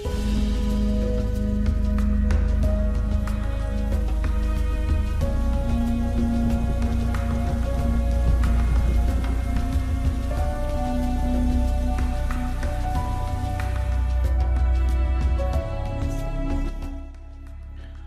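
Rain falling at night, a continuous dense patter that holds steady throughout with sustained tones underneath, then eases slightly at the very end.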